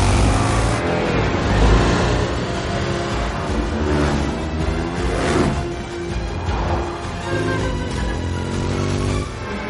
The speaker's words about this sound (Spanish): sujeta la moto con su brazo biónico y circula en dirección contraria al tráfico. El todoterreno le sigue a través del túnel.